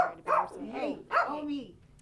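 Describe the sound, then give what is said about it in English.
A small dog in an office gives two short, high yapping barks about a second apart, each with a whiny, falling tail, fairly faint and followed by quiet. “a small dog with a big personality”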